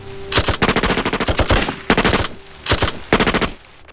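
Automatic gunfire erupts on a command to fire: a long rapid burst of loud, rattling shots, then three shorter bursts with brief pauses between them.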